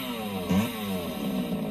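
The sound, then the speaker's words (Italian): Chainsaw engine running with a steady, buzzing drone, rising in a brief surge about a third of the way in before settling back to an even idle. “Tenga una motosega.”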